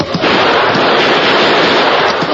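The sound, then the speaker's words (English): Gunfire aimed at a tunnel ceiling to chip the stone, heard as a few sharp shots buried in a loud, dense, continuous roar of noise. “I'm shooting at the ceiling of that tunnel. Let those rats dodge a hail of chipped stone. Here's some more!”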